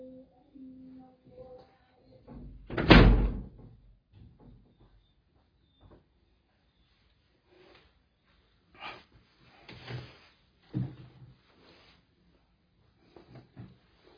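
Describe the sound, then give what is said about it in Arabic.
A door bangs once with a loud, heavy thump, followed later by several softer knocks and clicks scattered across otherwise quiet surroundings. “الباب”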